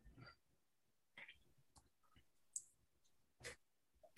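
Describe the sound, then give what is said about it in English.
Faint computer mouse clicks while scrolling, a few short, sparse ticks scattered across quiet background. “Sorry, guys, you happen to listen to me scrolling.”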